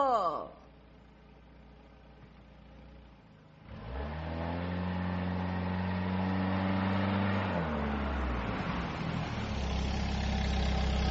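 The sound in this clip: A taxi's car engine stays near-silent for the first few seconds, then comes in as a steady low drone with layered humming tones that shift partway through before settling into a continuous run.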